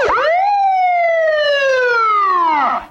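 A police siren wails alone, its pitch sweeping sharply up at the start, sliding slowly lower through the long steady tone, then dropping away at the end.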